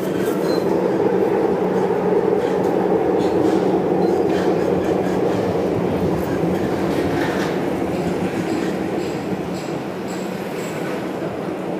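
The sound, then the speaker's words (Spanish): Moscow metro train running with a loud, steady rumble and clatter throughout, holding at an even level with no clear separate events. “¿Dónde vamos a estar? Aquí. Aquí, en Moscú. En el metro.”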